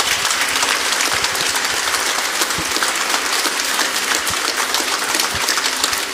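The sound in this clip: Family members at a church baptism applaud steadily and loudly, a dense, even wash of clapping from many hands that holds without pause throughout.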